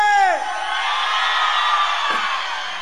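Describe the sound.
A crowd at a live singing performance cheers and shouts loudly in a sustained, dense roar, with a single voice rising out of it at the start.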